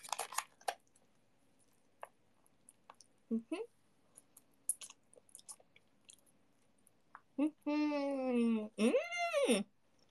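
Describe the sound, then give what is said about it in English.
Wet chewing and soft mouth smacks from someone eating udon noodles: scattered faint clicks and squishes, then a couple of drawn-out voiced hums near the end. “Yeah, the noodles are really nice. I love udon noodles.”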